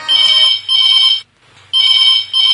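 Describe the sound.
Electronic telephone ringtone for an incoming call to a call-in program: two loud trilling rings separated by a short silence, each broken by a brief gap, with no talk over them.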